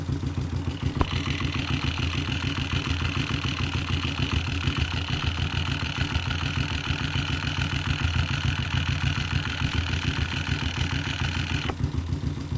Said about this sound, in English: It seems like most of what we can hear is just the ticking of the engine.